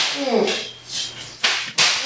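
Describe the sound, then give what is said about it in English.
A flogger strikes someone on a swing, wrapping around it with each blow. A voice is heard briefly at the start, followed by a few sharp, swishing lashes. “And I'm doing this so hard that the flogger is wrapping around the swing.”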